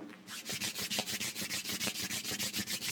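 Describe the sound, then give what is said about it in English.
Hands rub briskly together during a seated breathing exercise, making a fast, even series of dry, hissing strokes. The swishes pulse in a steady back-and-forth rhythm throughout, with no voices. “Breathe in and out, and as you do, rub your hands together like this.”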